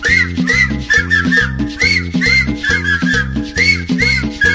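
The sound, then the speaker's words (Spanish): Whistling over a cumbia track, a bright whistled melody riding a steady, bouncing bass and rhythmic accompaniment that repeats throughout. “Chiflando a todos.”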